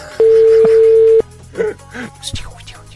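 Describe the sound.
Telephone dialing tones as a call is placed from a landline: one long, steady, loud tone lasting about a second, then a brief second tone, followed by quieter scattered noises.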